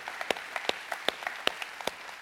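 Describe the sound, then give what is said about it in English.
A church audience applauding, many hands clapping in a soft, steady patter with sharper single claps popping out now and then, and no voices. “Come on, church, one more time. Let's put our hands together.”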